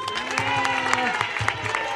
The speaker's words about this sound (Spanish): Vamos a limpiar el barranco y vamos a vivir mejor todos juntos. ¡Un aplauso!